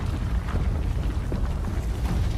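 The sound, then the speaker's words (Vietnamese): Roaring rumble of a large fire-bomb explosion that collapses part of a tunnel: a dense, loud, continuous wash of low, noisy rumbling with no pauses. “Trái bom lửa rơi trúng vào lũ gián, tạo ra một vụ nổ lớn.”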